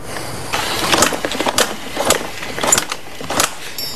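A badly flooded engine cranks over without catching, making a series of rough, uneven mechanical bursts that repeat roughly every half second throughout, with no voices.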